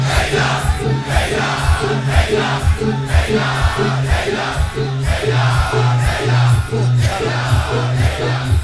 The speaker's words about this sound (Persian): هیدر، هیدر. همه دعوا سر این اسم. بگو یک صدا فریاد بزن. هیدر، هیدر، هیدر،